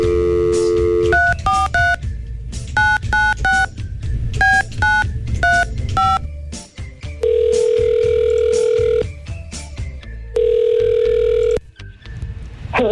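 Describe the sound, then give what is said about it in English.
Telephone tones as a call is placed: a quick series of dual-pitched keypad beeps in a few bursts, then two long steady ringing tones with a pause between. “We're going to give Carly a call right now.”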